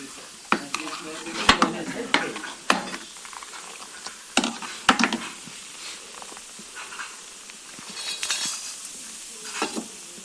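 Ladle stirring boiling tea in a pot on a wood stove inside a small traditional house, giving a series of irregular sharp metallic clinks and scrapes against the pot, with quieter rustling between them and no voices.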